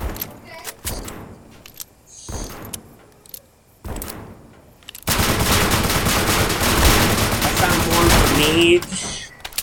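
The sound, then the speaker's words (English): Rapid 9mm gunfire in a video game: a few short bursts of shots, then a long stretch of dense, sustained firing that stays loud to the end. “I think I'm about to find no more RCE. I just ran through my stock of 9mm.”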